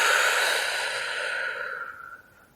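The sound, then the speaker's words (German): A slow, long exhale released after briefly holding the breath. It comes as one steady, breathy whoosh that gradually fades away, with no talk. “Und noch ein letztes Mal gemeinsam einatmen, die Luft kurz anhalten und gemeinsam ausatmen.”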